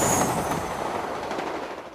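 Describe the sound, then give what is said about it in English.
A high-speed passenger train rushes through the countryside with a dense, steady roar and faint rhythmic clatter. The sound is loudest at first and eases slightly over two seconds. “Flying through the countryside on board a Virgin train, from the centre of one city to another”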